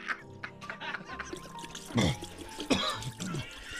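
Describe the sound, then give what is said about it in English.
Liquor poured from a bottle down a drain, uneven glugging gurgles with a couple of louder surging pulses over a quiet trickle, fairly soft overall. “Now I will pour the second bottle down the drain with, again, exception of one shot, which I will drink as I send it to its final reward.”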